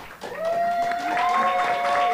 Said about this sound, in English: I know you guys all have a lot of fans in the audience, so everyone please cheer and clap.